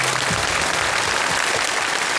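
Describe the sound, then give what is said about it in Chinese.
Studio audience applause at a children's poetry competition show: thick, continuous clapping from many hands at an even level from start to finish, with no voices over it. “希望你们有一个最完美的表现，好吧，来掌声送给他们。”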